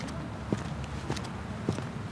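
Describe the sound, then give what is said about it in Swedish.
Footsteps of someone walking towards a tram, three soft, evenly spaced steps at a relaxed pace, faint against a continuous background rumble. “promenerar mot spårvagnen”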